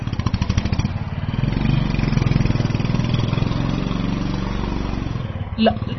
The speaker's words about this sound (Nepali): रोक्नु न मोटरसाइकल, कता उता जान लागेको?